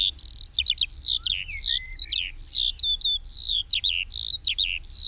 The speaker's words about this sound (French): Et sa cousine, évidemment, l'alouette des champs, qu'on a entendu une ou deux fois en vol. Alors, elle chante en volant à 50 ou 100 mètres au-dessus de vous.